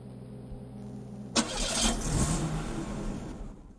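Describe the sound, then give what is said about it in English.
Car on a parking ramp, a quiet low hum that gives way to a sudden engine burst and a sustained, loud rumbling rev. “Kersey's car slowly coasts down the ramp towards Fake White's car.”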